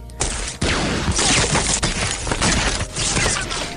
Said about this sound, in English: Suddenly we hear machine gun fire. A few bullets ricochet nearby and they dive for cover.